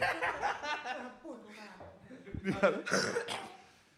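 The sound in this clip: A short cough from someone feeling unwell breaks through lively talk, a brief sharp burst among the voices before the chatter continues.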